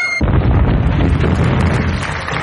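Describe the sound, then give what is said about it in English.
Bomb explosion sound effect: a loud, dense roar that bursts in abruptly and keeps rumbling heavily and evenly for a couple of seconds without fading. “Bombs away, man!”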